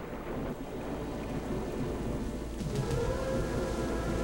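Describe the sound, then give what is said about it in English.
Thunder and rain at night over a deserted warehouse parking lot, a steady hiss of rainfall layered with low rolling rumbles that grow somewhat louder toward the end. “Nighttime. Lightning flashes over the deserted parking lot of a grungy warehouse.”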